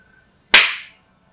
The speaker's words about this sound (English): Exactly, so why don't we just clap again and start from there?